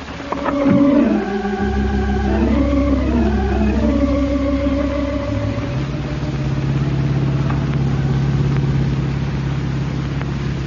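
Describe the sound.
Engine of a 1942 convertible driving on a highway: a steady mid-pitched motor drone that wavers and shifts in pitch early on, then settles into an even, continuous hum.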